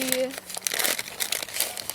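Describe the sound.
Packaging crinkles and rustles as something is unpacked, a dense run of crisp crackling bursts that continues throughout at a fairly even, moderately loud level.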